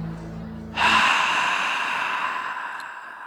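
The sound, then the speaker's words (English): A man lets out a forceful, breathy exhale that starts suddenly and trails away gradually over about two seconds, loud and rushing, with no talking. “And he ends it with an exhale.”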